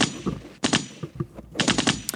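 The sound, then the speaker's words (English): A gunshot sound effect of rapid gunfire comes in a few short, sharp bursts with brief gaps between them, loud and crackling. “Shots fired.”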